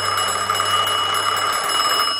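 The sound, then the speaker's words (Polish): A telephone rings with a continuous, bright electronic trill that holds steady and loud for the whole moment, with no voices. “Telefon zadzwonił.”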